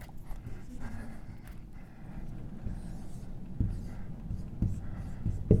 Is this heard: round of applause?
no